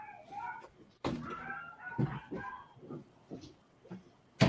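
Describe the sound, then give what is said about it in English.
Pet dogs barking in a string of irregular sharp barks and strained, yelping calls, some high and drawn out, with loud bursts near the start and the end and short quiet gaps between. “I don't know if you can hear my dogs barking.”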